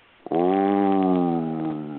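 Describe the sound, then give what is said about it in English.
A man's voice imitates an alligator's roar with a single low, rumbling, sustained growl lasting nearly two seconds that slowly fades. “And alligators can roar. They make this sound during mating season or when they're angry. And you heard this sound. It was like,”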